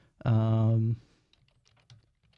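A few faint clicks of a computer keyboard as a radio playlist is updated, following a loud, steady droning tone that stops abruptly.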